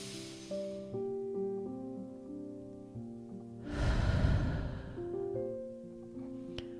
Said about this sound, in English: Just take 3 closing breaths. Do that again. Inhale through the nose.